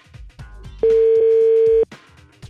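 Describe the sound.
A telephone dial tone sounds while a call is being placed: one steady, unbroken tone that lasts about a second and stops abruptly, with faint muffled sounds before and after it.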